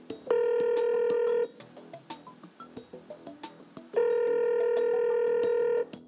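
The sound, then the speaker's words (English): A telephone ringback tone plays after a call is dialed: two long, steady, harmonic ringing bursts, one at the start and one near the end, with softer scattered sounds between them. “Dialing now.”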